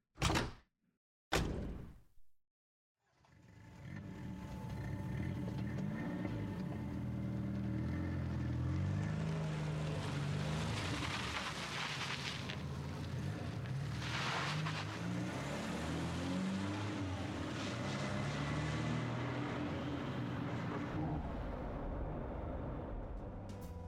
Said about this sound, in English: And there she goes, in the taxi to Dynamic Drive.